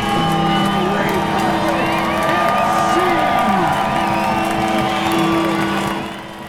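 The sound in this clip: A sold-out stadium crowd at a Sacramento Republic FC home match roars with cheers, whoops and shouts, a loud, sustained mass of voices with wavering tones on top, easing slightly in the final half-second.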